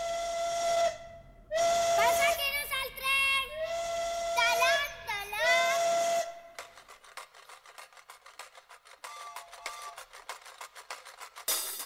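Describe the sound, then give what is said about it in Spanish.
A steam train whistle sounds in a few loud, steady-pitched blasts, then gives way to fainter hissing and rasping noise. “Chucu, chucu, chucu, que resuena en la pradera, va trepando la ladera nuestro tren.”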